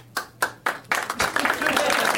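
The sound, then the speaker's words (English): Scattered applause from part of a crowd: a few separate, isolated claps at first, then thin, uneven clapping that fills in and carries on steadily to the end. “Really? You almost got a third of the crowd on board with that. I refuse to applaud.”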